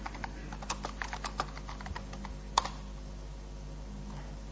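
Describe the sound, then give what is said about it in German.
Typing on a computer keyboard to send a message: many quiet, irregular key clicks in quick bursts over a low steady hum, with one sharper click near the end. “nehmen wir mal Fader und dann tippen wir die Message.”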